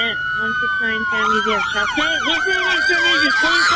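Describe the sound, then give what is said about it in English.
Several emergency vehicle sirens wail at a call about shots fired and an active shooter. Loud, overlapping rising-and-falling tones sweep alongside a steady high tone, starting about a third of the way in, while voices talk over them. “Those sirens could be headed anywhere.”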